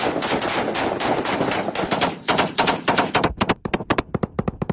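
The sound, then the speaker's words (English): Loud automatic gunfire from a video of Taliban fighters executing Afghan commandos: a dense, continuous volley that breaks into separate sharp shots with brief gaps toward the end. “This clip surfaced last week, showing them executing 22 Afghan commandos.”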